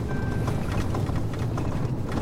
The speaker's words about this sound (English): The roads are washboard rough at times, causing vibrations in the recording.